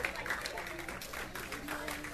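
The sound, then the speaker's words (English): Church audience clapping in praise during a worship service: a dense, even patter of hands that holds steady for the whole stretch, with voices mixed in. “Let's give the Lord a big hand clap of praise.”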